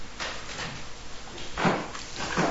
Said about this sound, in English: You want to open the window a little too? A little more.